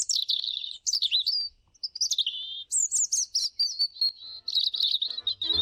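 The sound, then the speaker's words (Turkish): A European robin sings alone in clear, high, thin warbling phrases, each a quick run of trills and tweets separated by short pauses. “Doğa takvimini bugün Kızıl Gerdan'ın şarkısıyla bitirelim.”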